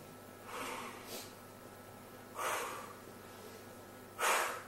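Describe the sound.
A few deep breaths drawn in, soft airy rushes that swell and fade one after another with quiet gaps between, faint and with no voice over them.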